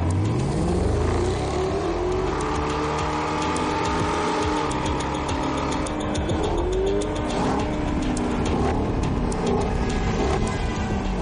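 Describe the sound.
Engines of two cars, a red sports car and a grey car, speeding along a motorway and overtaking other traffic; a continuous loud roar with rising revs and whooshing passes, no voices.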